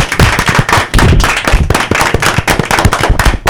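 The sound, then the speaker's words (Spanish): Applause for a guest: a group claps hard and fast, a dense, loud patter of sharp claps that runs without pause through the whole stretch. “Y un aplauso para nuestro invitado.”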